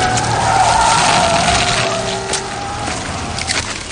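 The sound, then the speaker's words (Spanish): Car speeding along a wet road and running over a swarm of insects, with a loud tire squeal and engine roar that gradually fades. “un coche la atropella y acaba con sus insectos.”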